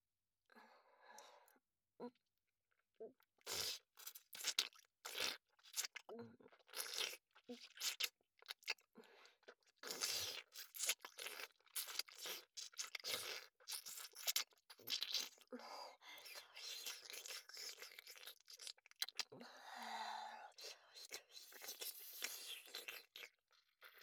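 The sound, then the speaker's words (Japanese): Cleaning sounds come in many quiet, irregular bursts of crunchy scraping and rustling, separated by brief gaps. “それではお掃除をさせていただきます。”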